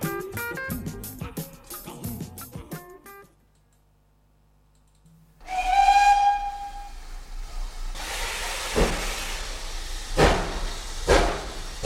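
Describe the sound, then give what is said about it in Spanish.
Steam train whistle signalling departure: after clicking sounds and a brief silence, a loud harmonic whistle blast sounds, followed by a broad, rushing train noise with a few sharp bursts. “nos vamos a ir hacia el tren porque enseguida va a pitar su salida”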